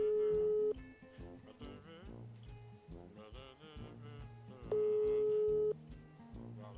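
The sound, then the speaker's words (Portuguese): Telephone ringback tone from a call waiting to be answered, two steady long beeps about four seconds apart, with a busy harmonic background sound running between and under them. “Vamos ver se vai atender. Opa. Tá chamando.”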